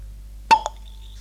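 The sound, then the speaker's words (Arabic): A stopper pops out of a bottle on a darkened stage: one sharp, bright pop, followed a moment later by a fainter second click, then near silence. “صوت سدادة زجاجة تفتح.”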